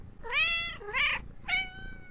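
A house cat meows three times, each a clear, tonal, drawn-out cry with short pauses between, at moderate volume and with no talk.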